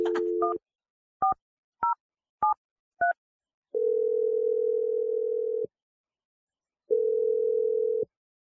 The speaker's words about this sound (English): Okay, let's just do this. Here we go. I'm dialing number right now.